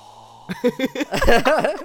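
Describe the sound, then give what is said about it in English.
A voice imitates the strange, wheezy breathing of vapers pictured as cartoon lungs: a few short voiced puffs, then a louder, raspy run of huffing sounds, with no words. “they always preface everything they say with this weird breathing”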